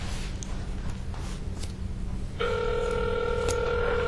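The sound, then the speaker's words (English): A telephone is dialed: faint clicks come first, then partway through a steady, clear two-note telephone tone starts and holds unbroken to the end. “I know why. I need to dial one. That's why it's in the back.”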